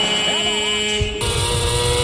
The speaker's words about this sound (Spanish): Vamos a ver, la moto le corre. La moto le corre a Marc. Vamos a ver si puede adelantar.